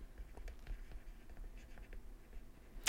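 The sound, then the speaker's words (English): Scratchy strokes of writing on a board as a diagram is sketched: a run of faint, short scrapes and taps, ending with a louder, sharper scratch. “So let's sketch it like this.”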